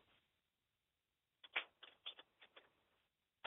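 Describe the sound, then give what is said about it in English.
Someone types out a social media post, a quick burst of soft, dry keystroke clicks after a pause, with one more click at the end. “Now, I need to do a new post to tell people that I'm back. What's on your mind? Give me a minute here. I need to type this out.”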